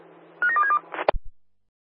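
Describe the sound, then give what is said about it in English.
Telephone dialing tones play as a quick run of short beeps at different pitches, then a sharp click and a low thump end the sequence. “Do you want to give me a call, mate? Dialing now.”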